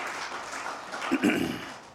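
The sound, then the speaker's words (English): Congregation clapping during a church service: a steady wash of applause runs through the whole stretch at moderate level, with voices talking over it near the middle. “All right, if you want to clap, that's a good time. That's not to me. There you go.”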